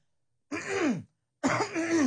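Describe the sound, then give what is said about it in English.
Throat clearing, two rough voiced bursts separated by a short pause, the second a little longer than the first. “okay, that's clear my throat.”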